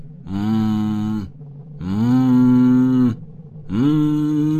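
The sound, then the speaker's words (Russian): Muffled, mooing moans from a person rocking back and forth, like someone crying out through a tight gag. There are three long, drawn-out tones with nothing else heard, and the middle tone lasts longest. “стала раскачиваться и мычать, как мог бы орать человек, чей рот плотно заткнули кляпом”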